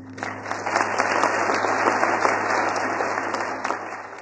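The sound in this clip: An audience at a school assembly applauds to welcome back a former pupil. Dense, loud clapping builds quickly, holds steady, then tapers slightly, with a faint low hum underneath.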